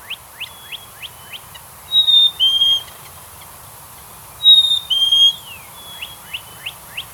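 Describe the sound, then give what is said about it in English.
A bird calls with a series of short, quick, high chirps, then a pair of longer clear whistled notes, a pause, the whistled pair again, and more short chirps, standing out alone against a faint background hiss. “you sent some bird sounds over today. I loved them, and I want to start right there with one.”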